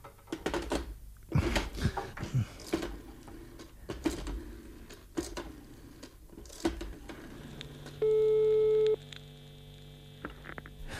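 A busy tone sounds after a phone call is cut off: a single steady tone lasting about one second, quiet over a constant low hum, following scattered faint clicks.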